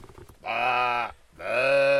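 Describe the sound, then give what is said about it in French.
A person imitates a ewe with two long, nasal, buzzing bleats separated by a short pause, the second a little louder and steadier than the first. “Tu fais pas aussi bien la brebis.”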